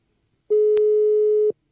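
A telephone busy signal after a dropped call: one steady, clear mid-pitched tone lasting about a second, with a soft click partway through, alone in silence.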